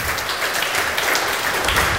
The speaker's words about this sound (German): Und die, die jetzt da klatschen